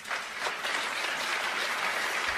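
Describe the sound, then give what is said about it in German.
Applause from an audience at a German-language stage talk, a dense, continuous rattle of clapping at a fairly even level throughout, with a few slightly stronger swells and no voices on top. “Danke für den Applaus.”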